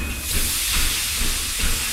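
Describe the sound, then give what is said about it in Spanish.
Steam train departing, a sound effect: broad, steady steam hiss with a few soft rhythmic chuffs rising out of it, with no voices. “El Chano sale corriendo y se escapa en el primer tren que sale hacia Sevilla”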